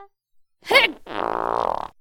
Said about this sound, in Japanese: 上履きの中にへえこいちまった。